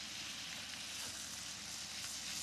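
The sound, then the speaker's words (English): Butter sizzling as it goes into a hot frying pan, a steady, dense crackling hiss that holds evenly throughout with no voices over it. “This, the butter going in. Oh. And then they go back into colour. Yeah, we want to colour them. We're going to flavour them. We're going to add thyme and garlic in there.”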